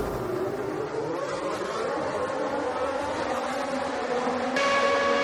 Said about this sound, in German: Fünfmal rot, Start zum Grand Prix von der Ferrari. Es geht los, ab geht's, Max Verstappen.